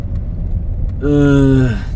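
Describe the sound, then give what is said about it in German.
A car drives around town with a low engine rumble running throughout. Midway, a loud, steady tone joins it for under a second, then cuts off. “Wir fahren seit gefühlten anderthalb Stunden ums Rätsel. Halt doch mal an!”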